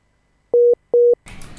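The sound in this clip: Telephone tones after a dropped call: two steady, even beeps of the same mid pitch, each about a fifth of a second long with a short gap between, then a brief stretch of rough line noise.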